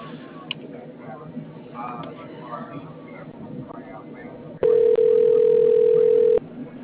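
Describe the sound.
Telephone dial tone sounds on a phone line while calls are being merged. Voices talk first, then a loud, steady, unwavering tone holds for about two seconds before stopping.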